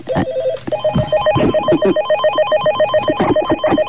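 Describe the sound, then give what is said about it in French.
A telephone at a switchboard rings in repeated bursts of bright, warbling electronic trills. It is loud and steady, with no voices. “j'ai reçu un coup de fil. Voilà, je m'approche vers le standard.”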